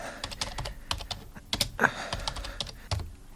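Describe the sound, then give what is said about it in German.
A search query is typed on a computer keyboard: quick, irregular clicking keystrokes in short runs, with a few louder key presses near the middle, at a moderate level. “gib doch mal den 10. August vor 24 Jahren in die Suchmaschine ein.”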